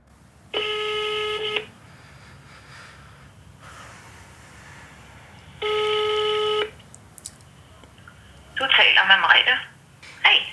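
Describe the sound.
A telephone rings twice, each ring a buzzy tone of about a second with a pause between, while calling a fertility clinic in Denmark; a voice then answers briefly.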